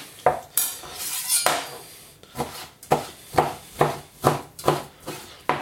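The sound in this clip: Lecho stew is scooped by hand from a pot through a small sieve held over meat, giving many metallic scrapes and clinks against the pot in a fairly regular rhythm, moderately loud, with no talking.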